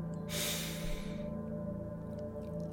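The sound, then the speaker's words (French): A single long, deep breath drawn in during a guided meditation, a soft rushing inhalation lasting about a second over a faint, steady background drone, followed by quiet. “Première chose que nous allons faire aujourd'hui, c'est prendre une grande et profonde inspiration.”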